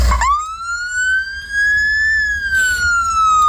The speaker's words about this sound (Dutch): Dit is het geluid van een Noorse ambulance. Oh ja, dat had hij helemaal speciaal geregeld dat hij even de sirene zo aan mocht zetten.